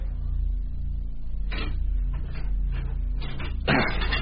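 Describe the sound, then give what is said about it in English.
Sound effect of a port being wrenched open as someone enters the main control section near a morgue: a steady low hum, then a run of scraping, clanking bursts and a louder final scrape near the end. “Approaching the morgue, Blanchard wrenches open the port and goes into the main control section.”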